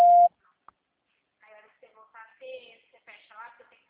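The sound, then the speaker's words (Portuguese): A voicemail beep sounds after a recorded message: one short, steady, loud tone on its own, followed by a person speaking quietly. “Sua chamada está sendo encaminhada para a caixa de mensagem e estará sujeita à cobrança após o sinal.”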